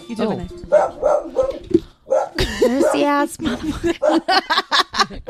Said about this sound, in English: we apologize for the dog interruptions. I don't understand. Because the dogs are just being crazy today.